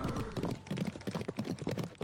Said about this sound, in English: A pitch-black carriage and its black horses is quickly approaching the very door you are standing in front of.